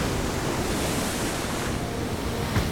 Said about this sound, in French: Mais alors que nous nous approchions des terres, la mer décida de s'interposer. Il était hors de question qu'elle laisse le capitaine accoster. Immédiatement, des vagues se levèrent